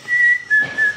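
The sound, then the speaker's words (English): Whistled imitation of a black-capped chickadee's spring call: three clear, pure whistled notes, the first held longer and slightly higher, followed by two shorter notes a little lower in pitch. “And there's a bird called the black-capped chickadee, and one of its spring calls is,”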